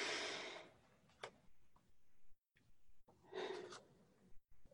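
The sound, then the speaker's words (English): Deep breaths taken during a guided relaxation exercise, drawn in through the nose and let out through the mouth: two faint, airy rushes of breath separated by a quiet pause, with a few small clicks between them and no talking. “Let's take a deep breath.”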